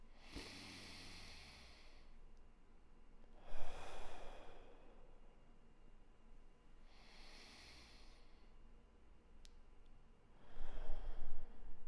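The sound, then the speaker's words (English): Slow, deep breathing goes in through the nose and out through the mouth, with four long, soft breaths spaced a few seconds apart. The breaths are faint, with no other sounds. “let's take some deep breaths. Go ahead and breathe in through your nose, out through your mouth.”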